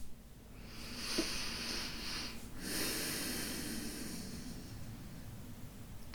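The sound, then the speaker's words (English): A deep breath taken on its own, a long, airy rush of breathing that stays soft and fairly steady for several seconds with no talk. “So I'm going to take a deep breath, and please take a deep breath with me, and here goes.”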